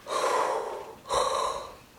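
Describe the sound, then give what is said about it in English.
Deep breaths in: two loud, airy inhalations, each about a second long with a rushing, hissy texture. A third intake begins right at the end. “And he told them to breathe in, right? When the time comes, breathe in.”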